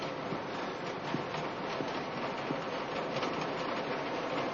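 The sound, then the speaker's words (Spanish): A train pulls in at the opposite platform of a station with a steady, broad rumble and hiss, a few faint clanks and knocks scattered through it, holding an even loudness throughout. “El tren llega al andén contrario.”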